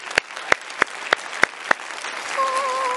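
Applause welcoming a guest to a program: six sharp, evenly spaced hand claps, each loud and crisp, followed by a quieter stretch.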